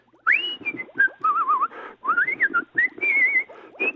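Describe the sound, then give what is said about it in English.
A person whistles a wavering melody in several short phrases, with sliding and warbling notes and brief pauses between them. The whistling is loud and clear. “Who the hell is whistling there?”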